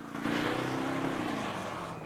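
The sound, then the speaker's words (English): A car engine roars as the car reverses onto a main road and then tears off along it, a loud, continuous revving drone with a low engine tone that holds steady and then dips slightly. “As Arnie reverses out onto the main road, then tears off along it, Lee keeps well hidden behind the tree and watches with concern.”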